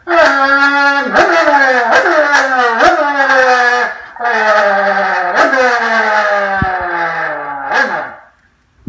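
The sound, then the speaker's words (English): A car downshifts with a paddle shifter on a freeway. The loud engine note repeatedly jumps sharply higher in pitch and then slides gradually lower, many times over, before dropping away near the end. “Oh boy, I better hit the paddle shift, downshift, get across those two lanes and down the ramp.”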